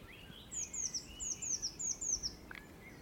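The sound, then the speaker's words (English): Faint birdsong in woodland where blackbirds sing and tits flit through the trees: many quick, high, down-slurred notes repeat in a steady rhythm over a soft background hiss. “There's just bird life everywhere. There's a lot of blackbirds singing, a lot of tits flitting through the trees.”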